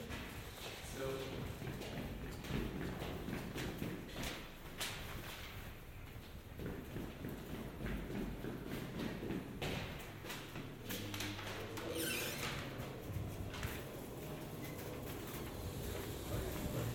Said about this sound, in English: Goodness sake, it's like the Haymarket down here this morning. Guys shoving trolleys and bins and people walking about. It's usually quiet.